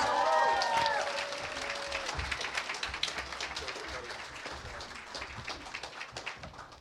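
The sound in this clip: A church audience applauds to welcome a speaker, producing dense, crackling clapping that starts strong and gradually thins into scattered claps toward the end.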